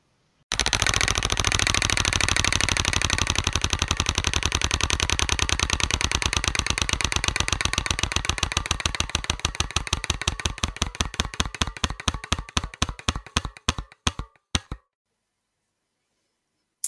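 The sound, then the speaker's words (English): A spinning roulette wheel clicks rapidly and steadily at first, then the clicks grow gradually further apart as the wheel slows, stopping abruptly after about fifteen seconds, followed by silence. No voices are heard. “Well, let's move on then. I'll spin the wheel again.”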